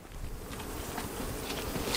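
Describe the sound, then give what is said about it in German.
Carniolan honey bees buzz in a continuous, even drone around a beehive, a dense hum of many insects that holds steady and slightly swells toward the end, with no talking. “Die heimische Karnika-Honigbiene.”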